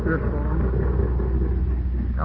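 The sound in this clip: A car motor runs with a steady, low rumbling drone throughout, and a voice is briefly heard at the start and end.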